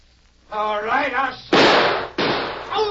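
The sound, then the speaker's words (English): Two sharp gunshots in a drama scene where a gun is shot out of someone's hand crack loudly one after the other, following a spoken line, with a voice returning after the second shot. “All right, I'll shoot. Oh, my gun! I just shot it out of your hand.”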